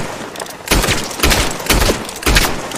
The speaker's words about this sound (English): I'm gonna shoot right here.